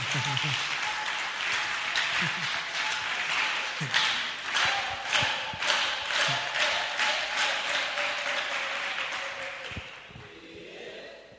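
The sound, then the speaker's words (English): Applause from an audience at a church sermon, a steady dense wash of many hands clapping that holds for about ten seconds, with a few voices mixed in, before fading out. “Don't worry, we'll take that clap, whether it's from your heart or not. We'll take that clap.”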